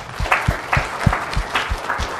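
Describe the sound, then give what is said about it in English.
Audience applause at a group presentation: a modest number of hands clapping in distinct, irregular bursts, fairly loud and continuous throughout, with no talk over it. “So a fantastic round of applause. That was great.”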